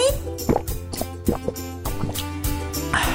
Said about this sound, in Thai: สามสีอยู่เฉยๆก่อนอุดอุดกินน้ำก่อนนะ